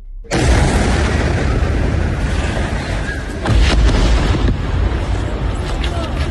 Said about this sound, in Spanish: Este sábado se ha cumplido una año del alto el fuego en Gaza, que suena así.